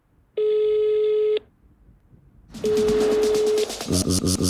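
A telephone ringing tone sounds in one sustained buzzy burst. After a short gap, a second tone follows over busier noise, then a rhythmic, music-like pattern.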